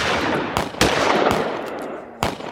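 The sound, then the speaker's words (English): Gunshots fired into the air by onlookers in a frontier town street as a wagon caravan rolls in. Several sharp, loud cracks ring out at irregular intervals over a dense, steady wash of background noise. “guns from onlookers blazed into the air”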